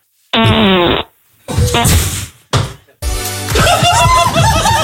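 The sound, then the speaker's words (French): A fart sound comes first: a loud buzzy burst lasting under a second, followed by a few other noisy bursts of sound. “Il a pété, il a raccroché. Première fois qu'on a pété, il a raccroché.”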